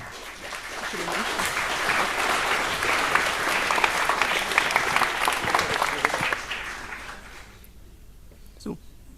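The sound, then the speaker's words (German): An audience applauds a speaker at a talk, with sustained clapping for about seven seconds that then dies away into near quiet. “Bitte eine Runde Applaus für”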